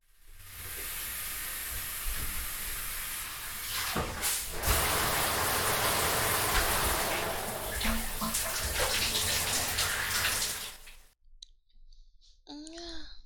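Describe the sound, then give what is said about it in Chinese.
Water runs loudly for a bath in a steady rushing hiss for about eleven seconds, then abruptly stops, leaving near silence with a faint, brief sound at the end. “你怎么突然去洗澡了？”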